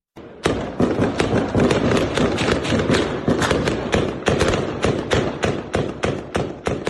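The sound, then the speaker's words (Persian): Gunfire in a city neighbourhood in the Sayed Noor Mohammad Shah Mina area of district 8 in Kabul: dense, continuous volleys of sharp cracks and heavy thuds, loud and relentless throughout, with no clear pauses. “این صدای تیراندازی در منطقه سید نور محمد شاه مینه ناحیه 8 شهر کابل است”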